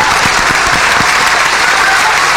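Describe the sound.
Audience applause at a live talk show, loud and continuous, with a few sharp individual claps standing out in the first second before merging into a steady wash of clapping.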